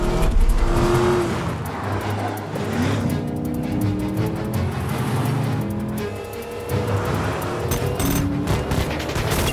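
Roaring car engines in a high-speed chase, with several vehicles racing in pursuit. The loud, dense engine noise runs throughout, with shifting engine notes and some sharp impact-like bursts mixed in.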